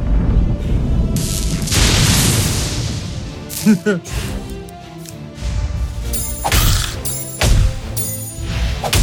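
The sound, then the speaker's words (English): Booming explosions from a video game go off in a few separate bursts, each a sudden loud crash with a rumbling tail, between stretches of busier, lower-level game sound. “I exploded it.”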